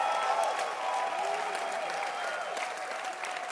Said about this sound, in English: Clap your hands and celebrate Jesus now.